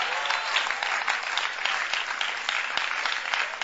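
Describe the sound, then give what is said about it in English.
An audience claps, many hands merging into a dense, even wash of applause that holds at a steady level from start to finish without voices. “Tell them that they should clap.”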